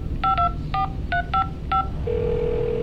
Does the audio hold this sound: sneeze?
no